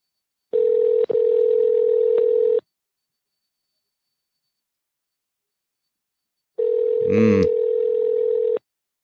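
A US telephone ringback tone follows a keypad press of 3 on an automated line. Two steady ring tones, each about two seconds long, are separated by a long silence. A click sounds in the first tone and a short burst in the second.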